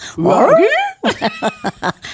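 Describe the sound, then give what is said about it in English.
A Japanese Spitz reacting to opera singing, giving one long wavering whine that rises in pitch, then a quick run of short, sharp yips, loud and close. “Spitz Jiro, listening to Sab and opera singer, particularly the high notes cracking me up, thinks Sabrina is most interesting. The dog has a look on its face”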